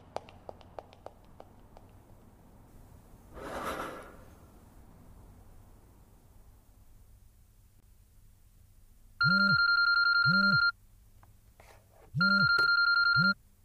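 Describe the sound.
A telephone rings for an incoming call with two bright electronic ring bursts, each lasting about a second and a half. Soft taps and a brief rustle come before the ringing, and no one talks.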